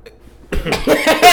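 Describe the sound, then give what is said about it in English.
A man clears his throat in a few harsh, rasping bursts after a moment of near silence. The sound is fairly loud and close. “For anyone that didn't get that, he cleared his throat and readjusted himself.”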